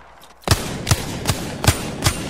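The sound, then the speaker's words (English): Gunfire in the video game Apex Legends: five sharp, punchy shots in an even, deliberate rhythm after a brief quiet start, each one loud and quickly decaying. “Opening fire on the enemy.”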